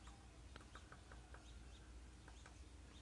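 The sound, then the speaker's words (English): A rooster and other fowl cluck in short, evenly spaced calls while birds chirp outdoors among palm trees, all faint over a steady hiss of background noise. “you combine that with the sound of the birds and the rooster over there.”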